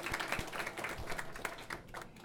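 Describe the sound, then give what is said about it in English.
Faint, scattered audience applause at a storytelling night, made of many sharp, uneven claps in a loose rhythm with no talk over it. “this might be our biggest crowd, so give yourself a hand.”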